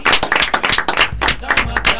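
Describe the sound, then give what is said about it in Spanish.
Many quick, sharp hand claps close a radio program, a brisk, uneven patter that holds steady for about two seconds. “Bueno, y con un aplauso grande terminamos el programa de Jóvenes en Acción aquí en Radio Cultura.”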